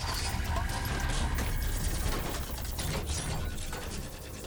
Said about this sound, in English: Sounds of the machines coming to life began to rise, just like back in the hospital.